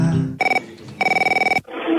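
A telephone rings in two bursts, a short one and then a longer one, each a bright, rapidly pulsing electronic trill, with other sound just before and after.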